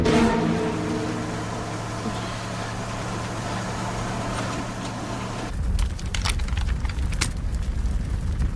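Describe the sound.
An old motorhome driving away, its engine a steady low rumbling hum that shifts abruptly into a rougher, noisier roar broken by sharp knocks near the end.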